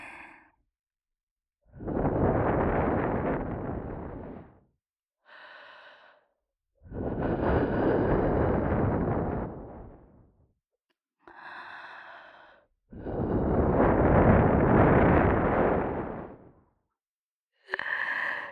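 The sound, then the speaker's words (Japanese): Breath blown close into the ear: several long, airy exhalations, each swelling and fading over a few seconds, separated by short quieter breaths and pauses of near silence. “耳元で息を吹きかけて。”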